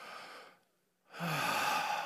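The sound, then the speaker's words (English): A deep breath comes in two long, airy, breathy phases separated by a brief quiet pause. It is soft and heard alone, with no talk. “Just everybody just take a deep breath.”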